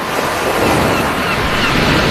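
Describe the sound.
Ocean waves on a beach make a steady, broad rushing wash of surf, continuous and fairly loud, with a windy hiss mixed in.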